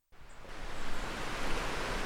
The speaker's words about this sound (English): You can hear the water, yeah, I can see it rushing down there.